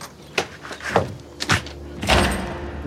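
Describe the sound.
A stuck door of a new home being shoved open, with a few dull thumps at intervals followed by a longer, louder scraping push as it gives way, with no one talking.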